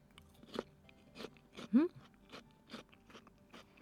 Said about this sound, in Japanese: 続いては山芋ですどうかないただきます